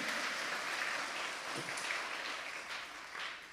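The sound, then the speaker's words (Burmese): Congregation clapping in praise of God during a church sermon, a steady, dense wash of many hands that stays fairly even and soft for the whole stretch. “ဟာလေလုယာထိုဘုရားကိုလက်ခုပ်တီးလက်ချီးမွမ်းရအောင်အာမင်”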